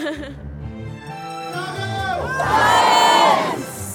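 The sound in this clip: Crowd of protesters at a march: mixed shouting and whooping voices that swell into a louder burst of cheering with high rising calls, then ease off slightly.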